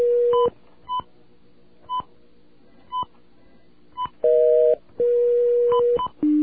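Telephone keypad buttons sound a series of short, bright dialing tones with brief gaps between them, then several longer sustained tones near the end. They are fairly loud, with no talking.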